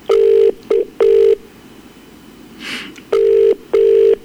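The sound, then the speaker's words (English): Telephone calling tone on an outgoing call: loud, steady, mid-pitched tone bursts in two clusters, three short rings then a pause with a faint rustle, then two more rings. “So let's give her a call.”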